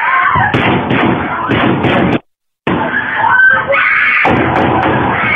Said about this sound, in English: Take a listen, sound of the shooting.